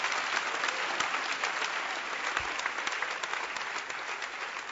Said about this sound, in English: Clap your hands for this man. He's a great man.